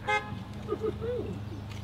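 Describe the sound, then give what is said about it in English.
Car horns honk in a parking lot: a short, bright toot at the start, followed by a few fainter, wavering horn tones over a low background rumble. “I'm going to miss the honking. I like this. Yeah, I'm going to miss this honking.”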